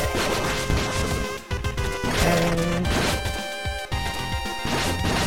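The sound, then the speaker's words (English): Sword attack hits from the video game Lords of Exile, sharp crashing whacks repeating over steady tonal game music. “I can just stand here and attack the pyramid head. You can't reach me. I'm missing out on a little bar above, though. Oh! I can swing my sword when I'm on a ladder.”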